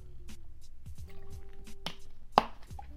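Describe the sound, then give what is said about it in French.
Someone drinking some water: soft wet sips, swallows and small liquid clicks in a few quiet bursts, with one sharper click near the end and no talk. “je bois un peu d'eau, hein, c'est vraiment comme à la maison, comme je vous disais.”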